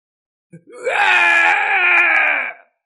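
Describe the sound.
A drawn-out howl of pain from a human voice swells quickly after a short click, then holds as a loud, strained wail for about two seconds before cutting off.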